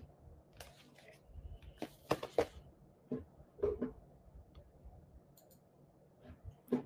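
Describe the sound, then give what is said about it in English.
Computer mouse clicking: a few sharp, faint clicks come in scattered pairs and singles over quiet background noise. “let's click back. Let's go ahead and click back again.”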